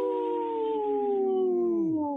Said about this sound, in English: Howling for Wolves, protecting wolves for future generations. Howl! Howl!